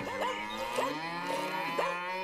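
A herd of cattle moos, with several drawn-out, overlapping low calls in steady succession at moderate volume and no talking.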